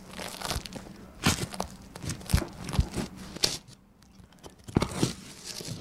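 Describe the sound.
A knife cuts through a chicken cutlet sandwich with crusty bread, giving several irregular, sharp crunches and crackles between quieter pauses.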